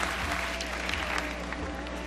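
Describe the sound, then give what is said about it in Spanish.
Audience applause at an awards ceremony as a film is presented: dense, steady clapping from a large crowd that holds at an even level throughout, with a low hum underneath. “son los aplausos a Meryl Streep cuando se ha presentado su película”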